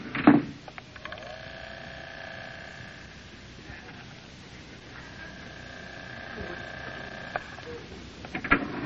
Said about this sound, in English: Hurry, there's the elevator. Down, please. Watch your step, Mary.